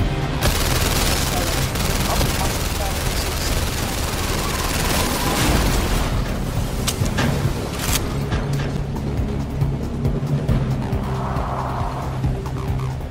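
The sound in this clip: Gunfire in a virtual-reality shooter video game forms a dense, loud, continuous barrage of crackling shots and mechanical clatter, with sharper individual cracks standing out partway through.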